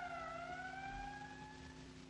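Police car siren from a street scene in a 1969 drama: a faint, steady wail that holds for the whole stretch while its pitch climbs slowly.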